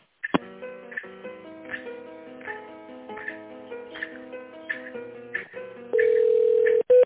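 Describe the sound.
Telephone line tones while a call is transferred: a faint electronic melody of stepped tones with regular soft clicks, then a louder steady beep tone and one brief final beep, with no talk.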